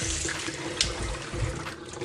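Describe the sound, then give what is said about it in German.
Water runs steadily from a tap as hands sticky from food are washed under it, a continuous hissing rush with faint splashes. “Ich wasche jetzt erstmal meine Hände. Und ich wasche auch kurz den Ding gleich noch aus.”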